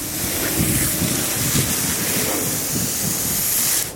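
Water hisses as it is sprayed onto a layered compost pile of hay to wet it down. The loud, continuous rushing spray holds steady for about four seconds, then cuts off abruptly.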